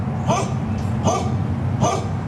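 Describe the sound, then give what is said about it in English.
Dogs barking: three sharp barks spaced evenly, each under a second apart, over a steady low background hum. “Those dogs are saying, please help us.”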